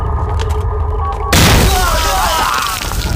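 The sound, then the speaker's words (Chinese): A landmine blast: a single heavy boom about midway, spreading into a broad, rumbling roar with a crackling tail. Voices can be heard before the explosion. “他们放炮啊！ 什么炮？那是地雷”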